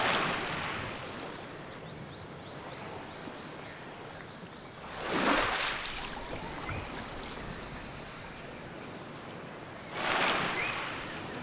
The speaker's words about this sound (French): synchronisant sur le bruit des rames. Inspirez longuement quand vous entendez ce son. Et expirez longuement quand vous entendez ce son.